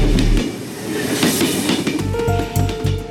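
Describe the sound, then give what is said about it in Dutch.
A regional passenger train runs on the line towards Ede-Wageningen in the Netherlands with a dense rolling rumble. Rhythmic wheel clatter and a steady tonal whine come in over the second half. “Kippenlijntje, vijf keer per week en we gaan nu eh, richting Ede-Wageningen.”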